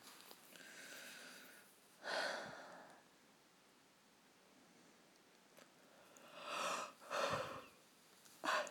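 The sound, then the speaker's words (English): Faint, breathy yawning from a person: a few drawn-out, sighing breaths rise and fade, separated by quiet stretches. “forgive the yawning”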